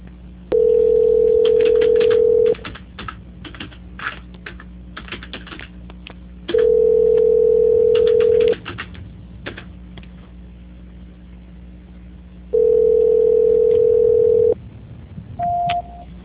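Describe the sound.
Telephone call transfer tones: three identical steady beeps, each about two seconds long and evenly spaced, with quiet line noise and faint clicks between them, then a brief higher beep near the end.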